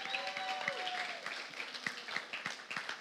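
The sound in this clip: Audience applause welcoming a pastor at an evening gathering: scattered, fairly light clapping from a group that carries on steadily, with a brief voice at the start.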